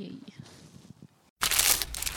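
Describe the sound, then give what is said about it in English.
Someone talks quietly, then a McDonald's steak, egg and cheese bagel wrapper crinkles loudly as it is unwrapped, a sustained papery rustle after a brief pause. “For all you foodies out there, I'm unwrapping a McDonald's steak, egg, and cheese bagel.”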